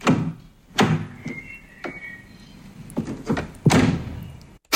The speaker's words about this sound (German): Richtig, eine Autotür.